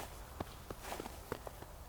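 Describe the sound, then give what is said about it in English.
Footsteps walking in snow: a faint, steady series of soft, muffled steps at an even walking pace. “And just reflect on that while I walk in the snow.”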